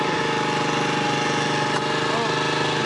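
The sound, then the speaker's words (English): A motorbike engine running at a steady idle, a constant droning rumble with a throbbing pulse, unchanging in pitch and loudness from start to finish. “Shut off your bike. Oh, yeah, just drop some drugs. Shut off your bike, because I said so.”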